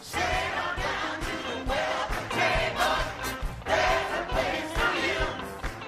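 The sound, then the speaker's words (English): The Glide Memorial Church choir of San Francisco sings at a lively service: full, loud massed voices over a steady rhythmic beat that continues without a break. “That's the famed choir of Glide Memorial Church, a San Francisco institution known for its social programs and lively services.”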